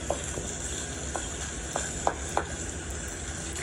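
Sausage, bacon and eggs sizzle in a pan on a Coleman camp stove. A steady, loud frying hiss continues throughout, broken by a few small pops and utensil clicks.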